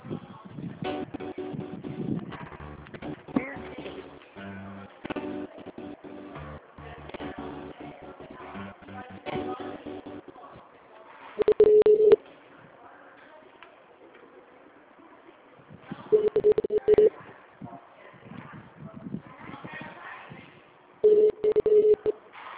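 Telephone ringback tones on a line while a call is being transferred, three short steady beeping bursts about five seconds apart after a stretch of faint, muffled line noise.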